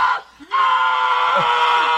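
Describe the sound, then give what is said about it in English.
A person lets out a loud, sustained, high-pitched scream while auditioning for a horror movie. A brief cry comes first, then the scream holds steady and strong to the end. “And now, celebrities audition for the new Scream movie by screaming.”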